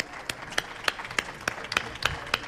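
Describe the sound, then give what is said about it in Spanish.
Rhythmic clapping from an audience at a gathering of the Peña Recreativa Zoiti club in Huesca: about eight sharp, evenly spaced claps at a steady, moderate pace, each standing clear above a low background hiss. “Pues un aplauso para todos ellos porque han resumido”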